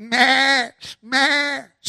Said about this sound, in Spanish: What am I hearing? The bleat of the sheep, my ears, and the lowing of the oxen?